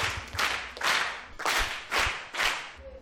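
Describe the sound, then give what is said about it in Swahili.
A classroom of pupils claps for a classmate in five loud, evenly spaced group claps, each a sharp burst of many hands striking together in a steady rhythm. “Mpigeni makofi.”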